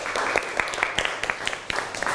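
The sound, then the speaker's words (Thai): Applause from students in a classroom, praising a classmate's artwork of a dessert on a plate: a steady patter of many hands clapping, fairly soft, with a few sharper individual claps standing out. “อันนี้ปรบมือให้เพื่อนหน่อยครับ”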